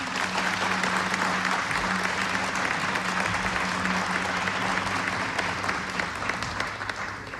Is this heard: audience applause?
yes